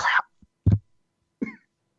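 A person coughs and clears the throat after nearly choking while imitating crowd noise. A few short, sharp coughs are separated by brief pauses, fairly loud and with no other sound.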